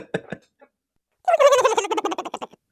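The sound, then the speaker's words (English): A turkey gobble is used as a transition sound effect: a loud, rapid, warbling burst of gobbling lasting just over a second, after a few brief, softer sounds. “Can we keep that all year round if there's technical difficulties, just a turkey gobble?”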